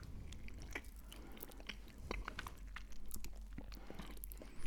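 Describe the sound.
Faint chewing of a light, fruity cream cake with a base, heard as a steady run of small soft clicks and squishy crunches with no talking.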